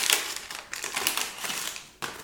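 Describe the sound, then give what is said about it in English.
Crackling and tearing of a wrapper as a 30-cent pack of Donruss Major League All-Stars baseball cards, with puzzle pieces and a pop-up, is opened. Several crisp bursts of crinkling rustle unevenly, with a sharp final rip near the end. “It's got Donruss Major League All-Stars, 30 cents. Pop-up, puzzle, and cards. One pop-up, three puzzle pieces, and five cards. And Stan Musial puzzle. All right, let's open this up.”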